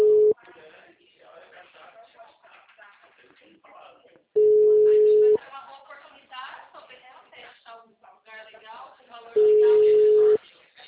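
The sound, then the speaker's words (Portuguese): Telephone busy tone after a dropped call: a steady, mid-pitched tone sounds in three long bursts, the first cut off at the start, with people talking in between. “caiu a ligação”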